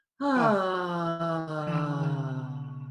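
A single sustained vocal tone is voiced while breath is released. The hum-like moan starts abruptly, then holds for almost three seconds alone, its pitch drifting gently downward as it softens and wavers slightly toward the end.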